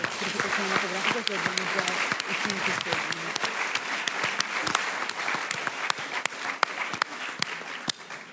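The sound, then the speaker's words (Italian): Audience applause at an evening festival event honouring its organisers: dense, steady clapping that runs about eight seconds, with a voice heard over the first few seconds, thinning to scattered individual claps toward the end. “Proprio per questo io direi di far loro un applauso.”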